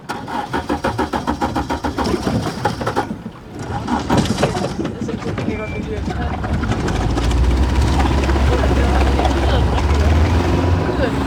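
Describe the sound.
A boat engine on a diving research ship anchored on limestone ground off Grenå cranks in rapid pulses, falters briefly, then catches and settles into a loud, steady low rumble.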